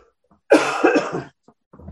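A bronchitis cough: one harsh, chesty burst of several rough pulses breaks a near-silent pause, followed by quiet and a faint breath.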